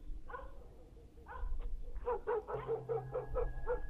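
Dog barking sound effect: a couple of isolated high yaps, then a rapid, evenly spaced run of yapping barks over a low rumbling background with a faint steady tone.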